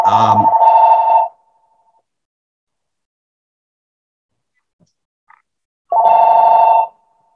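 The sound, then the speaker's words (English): A telephone ringing twice, each ring a bright trilling burst about a second long, separated by several seconds of near silence. “I'm sorry, that phone is going to keep going there.”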